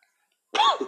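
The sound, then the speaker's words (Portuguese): One short, harsh choking cough bursts out of silence, throaty and abrupt, with a slight rasping tail. “Ai, desculpa, gente. Eu engasguei aqui.”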